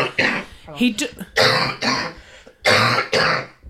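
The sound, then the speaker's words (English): A harsh, hacking smoker's cough breaks out in a run of rough, loud bursts with short gaps between them, and a voice is mixed in among them. “it's a real hacking smoker's cough, isn't it?”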